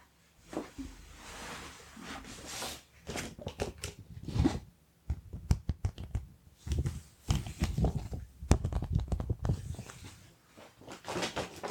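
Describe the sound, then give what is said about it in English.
Crinkling and rustling of a plastic wallet being handled as a paper drawing is slipped inside: many irregular crackles, crisp snaps and soft swishes in uneven bursts, with short pauses, alone without talk. “Let me just go and grab that plastic wallet for you, and I can slip the drawing inside”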